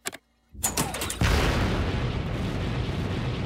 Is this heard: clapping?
no